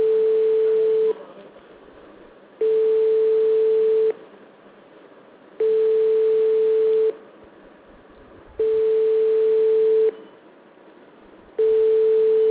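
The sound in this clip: Telephone line tone heard while calling someone: five steady, loud beeps of about a second and a half each, evenly spaced by equal pauses, with no other sound.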